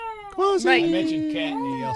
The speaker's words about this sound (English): This is our second black cat that we've gotten.